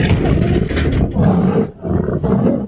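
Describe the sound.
Amur tiger roaring: deep, loud, rumbling roars fill the whole clip as continuous growling bursts, with brief dips in loudness between them and no talk.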